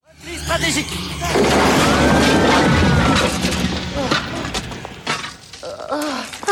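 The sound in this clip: A tower collapsing, with a loud, sustained crash of breaking and shattering debris that swells abruptly and rumbles on for a couple of seconds before easing off, amid voices.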